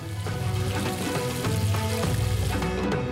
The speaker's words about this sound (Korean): 크게 두토막 낸 코다리를 예쁜 튀김옷에 입혀 바싹하게 튀겨내고,